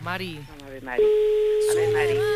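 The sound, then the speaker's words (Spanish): A telephone ringback tone after dialing: a steady, single-pitched tone that starts abruptly after a brief voice and holds to the end, with talk continuing over it. “estamos marcando el teléfono de Mari. Primer tono.”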